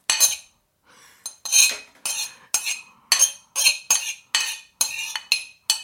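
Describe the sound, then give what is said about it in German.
Butter goes into a mixing bowl during Christmas baking, with a utensil scraping and knocking against the bowl in a steady series of many short, crisp strokes, fairly loud and without talk. “Dann kann die Butter jetzt in die Schüssel.”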